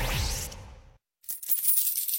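Coins drop as a sound effect in a lemonade advert: a burst of bright metallic noise fades away, a short silence follows, then a scatter of small jingling clinks.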